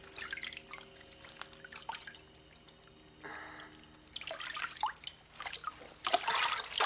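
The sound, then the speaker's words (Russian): Wet dripping and splattering of sandy mud running off a soaked man, with irregular drips and trickles that give way to louder sloshing bursts near the end, with no talk. “С него капает песочная жижа.”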